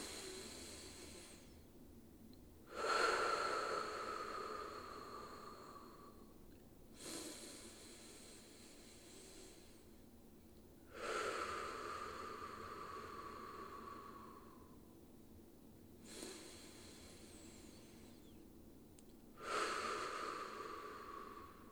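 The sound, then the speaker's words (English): Slow, deep breaths drawn in through the nose during a guided breathing exercise. A few long, airy rushes of breath, some carrying a faint whistling tone, swell and fade in a steady, unhurried rhythm with no talking. “So let's take three breaths together from that place of appreciation, forgiveness, and love. In through the nose.”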